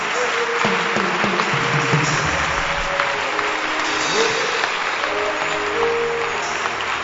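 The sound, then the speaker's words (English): Audience clapping at a prayer gathering: dense, steady applause from many hands carries on without a break for about seven seconds. “Keep clapping.”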